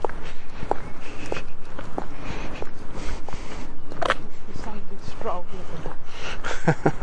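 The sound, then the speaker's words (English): Footsteps of people walking outdoors on a Sunday stroll, a steady run of soft irregular steps heard under ongoing conversation. “it's a nice day to be just out walking.”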